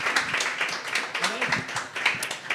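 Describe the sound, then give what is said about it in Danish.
Applause from a live audience at a talk show in a blues bar, greeting a fashion designer: dense, steady clapping that holds for the whole stretch, with a voice heard faintly over it. “Mine damer og herrer, giv en hånd til en modedesigner.”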